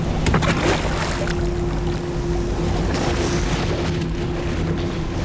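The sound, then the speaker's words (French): Sea and ship noise as a wrecked ship sinks: a continuous broad rush of wind and waves with a low steady hum underneath and a few sharp cracking bursts near the start. “Déjà, le navire déchiqueté commence à sombrer. Oh, c'est naufrage assuré.”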